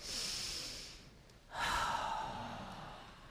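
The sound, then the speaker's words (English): Deep breathing during a seated warm-up: soft, airy breaths with a hushed hiss that swells into a fuller draw of air, faint and with no talking. “So let's have everyone take a deep breath.”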